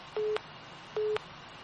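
Busy tone on a phone line after a dropped call, with two short steady beeps under a constant line hiss.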